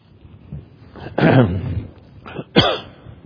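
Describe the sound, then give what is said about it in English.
Harsh coughing fits from someone whose water went down the wrong pipe: a loud, rough burst of coughs, a short pause, then another sharp cough and throat-clearing. “excuse me, the water went down the wrong pipe”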